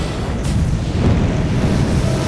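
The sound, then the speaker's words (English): A pack holding crocodile liver and heart bursts into flames in a fire, giving a loud, steady roaring rumble that holds for about two seconds without any voices. “It burst into flames.”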